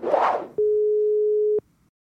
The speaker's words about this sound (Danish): Så skal vi ringe til min mor også, nu hvor vi er i gang.